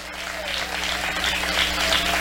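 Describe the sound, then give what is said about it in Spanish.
Congregation applauding in church, a full, steady mass of clapping that swells slightly louder toward the end. “Vamos, dele ese aplauso a ese Dios maravilloso.”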